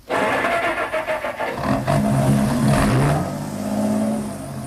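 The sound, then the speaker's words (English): A car engine starts with a brief crank, then revs and settles into a loud, steady drone that holds for several seconds before easing slightly. “He started the motor.”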